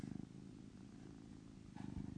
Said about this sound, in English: But he's purring at you at the moment